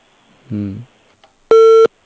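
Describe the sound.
Telephone busy signal on a call that will not go through, heard as two short tone bursts, a lower buzzing tone followed by a loud, clean mid-pitched beep, each lasting under half a second.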